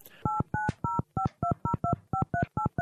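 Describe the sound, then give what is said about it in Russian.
Touch-tone beeps as a telephone number is dialed to call a guest: a quick, even run of ten clear, loud two-tone keypad beeps with short gaps between them, and no talking. “Ну, отлично, звоним тогда Ильичу, поехали.”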